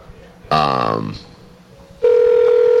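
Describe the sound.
Telephone ringing tone on an unanswered call: a brief voice sounds first, then a steady, mid-pitched tone starts and holds loud to the end.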